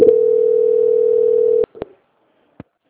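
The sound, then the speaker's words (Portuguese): A steady, loud telephone line tone drones during a call transfer after the call drops, then stops abruptly. A few short clicks follow, then near silence and one last faint click. “Oi, a ligação caiu, peço desculpas, tá?”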